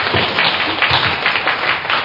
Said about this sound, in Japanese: 皆様拍手をお願いいたします。